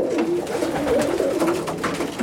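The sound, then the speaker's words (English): A flock of pigeons swoops down to scattered grain, with continuous low cooing over a busy rustling texture. “a few pigeons begin swooping down from trees towards us.”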